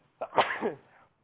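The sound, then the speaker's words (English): One human sneeze: a short intake, then a sharp, breathy burst that trails off quickly, with nothing else heard around it. “I'm going to sneeze here in a sec, I think.”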